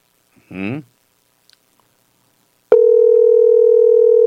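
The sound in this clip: A telephone line tone on a call that comes back busy: after a short muffled sound and faint clicks, a single steady, unbroken tone sounds alone and loud until the end.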